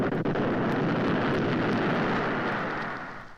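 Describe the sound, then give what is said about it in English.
A retro rocket fires during a moon landing, producing a dense, rushing roar with deep rumble. It holds steady and loud, then tapers away near the end. “We fire our retro rocket to resist the pull of the moon's gravity and make a safe landing.”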